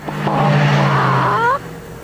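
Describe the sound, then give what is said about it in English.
A Toyota Camry's twin-cam, fuel-injected multi-valve engine revs in a loud, sustained drone whose upper tones climb in pitch before cutting off abruptly into a quieter tail. “The new Toyota Camry is powered by a twin cam, fuel-injected, multi-valve engine.”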